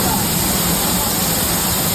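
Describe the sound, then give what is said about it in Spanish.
Torrential cloudburst downpour at night in Castellón: a dense, steady roar of heavy rain that holds at an even, loud level with no break for the whole two seconds. “Así sonaba anoche la tromba de agua en Castellón.”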